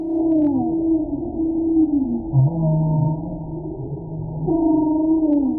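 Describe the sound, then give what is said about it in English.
A humpback whale calls in the Santa Barbara Channel off the California coast, with long, moaning tones that slide up and down in pitch, overlapping groans and a low rumbling undertone that continues without break and without voices. “That's the sound of a humpback whale off the coast of California.”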